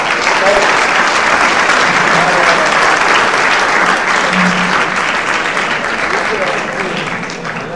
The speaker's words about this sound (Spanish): Muy bien, un fuerte aplauso.